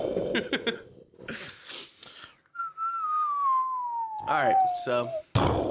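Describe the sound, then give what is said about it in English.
Whistled imitation of a bomb dropping from high in the air on Hiroshima: after brief talk, one long, steady whistle glides slowly downward in pitch and ends abruptly under a short burst of voice. “That was the sound of the bomb dropping from high up in the air.”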